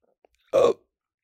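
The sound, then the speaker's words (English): A single hiccup from a person: one short, voiced, gulping burst with a sharp onset, heard alone against near silence. “I just had a really bad hiccup. That caused a rumbling in my stomach.”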